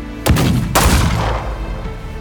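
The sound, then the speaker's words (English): Gunfire in a shootout among townsfolk: two sharp, loud blasts about half a second apart, each followed by a heavy rumbling decay that lingers to the end. “The air fills with gun blasts and smoke. The townsfolk don't even have time to raise their weapons. Cloak's guns chatter back and forth,”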